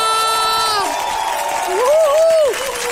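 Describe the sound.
A regional TV show's studio audience cheers and shouts. A loud sustained shout opens the stretch, then a wavering whoop rises later over a bed of crowd noise.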